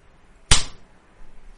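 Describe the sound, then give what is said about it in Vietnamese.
A hard slap across someone's face, a single sharp, crisp crack that rises instantly and decays quickly, followed by a low, quiet stretch. “Điền Thảo đột nhiên xoay người đỏ mắt, vùng tay lên tát mạnh vào mặt Tiết Hộ.”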